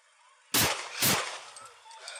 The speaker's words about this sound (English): Shots fired.